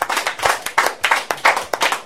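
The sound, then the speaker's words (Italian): Clapping for a band at a live music night, sparse and uneven: many distinct, sharp hand claps from what sounds like a small group, each clap standing out separately with brief gaps between them. “Un applauso. Un applauso al gruppo.”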